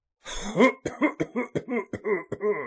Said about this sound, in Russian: начал кашлять, как бы стараясь замять разговор